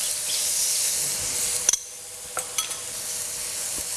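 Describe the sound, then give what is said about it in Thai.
Shrimp searing in a hot dry pan gives a steady bright sizzle, broken by a few sharp clicks and scrapes near the middle and end. “ก็ดูสังเกตสีกุ้งเวลาเราย่างเนี่ยนะคะก็คือเขาจะเริ่มแดงขึ้นมานะคะเริ่มแดงขึ้นมาหน่อยนึงแล้วเราถึงจะกลับนะคะกลับด้านย่างพอสุกนะคะ”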